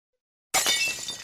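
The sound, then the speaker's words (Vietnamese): A bowl of rice porridge drops onto a brick floor and shatters in one sudden, loud crash after silence. A bright, brittle spray of breaking pieces decays quickly. “Bát cháo trắng rơi xuống nền gạch vỡ tan tành.”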